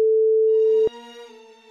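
A telephone ringback tone sounds while a call is being placed: a single steady, loud electronic tone that cuts off with a click, then a quieter buzzing tone carries on.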